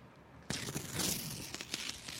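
An envelope being opened: a soft papery crinkle and tearing rustle starts abruptly and continues, faint and alone.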